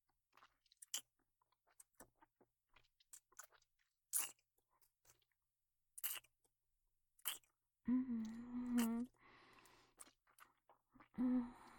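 Food is chewed while being tasted: many faint, crunchy bites and mouth clicks spaced irregularly, with a couple of longer voiced hums in the second half.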